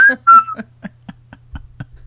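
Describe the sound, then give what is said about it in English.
A person whistles a short, high note in two quick parts, then several faint, brief clicks follow. “let me whistle once and try to say this again.”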